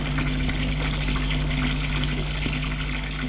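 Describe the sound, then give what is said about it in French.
Water runs at a washbasin while someone washes their head with soap: a steady, continuous rushing spray that stays even in loudness throughout, with a low hum beneath and no voices. “Il va au lavabo pour se nettoyer. Il se met la tête sous l'eau, savonne,”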